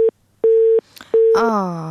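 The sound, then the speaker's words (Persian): A telephone busy tone sounds after a call is cut off: a steady mid-pitched beep repeats in short, evenly spaced pulses, and then a voice begins. “متاسفانه که تماس لیلا همساز قطع شد.”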